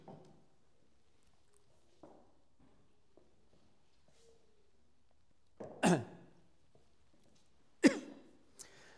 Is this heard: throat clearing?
yes